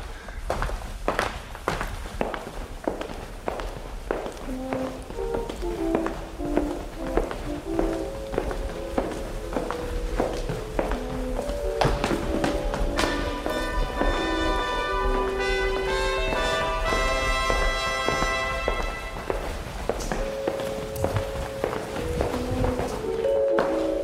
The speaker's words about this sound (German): Und wenn wir jetzt laufen, dann laufen wir wirklich echt, ohne dass wir auf der Stelle gehen,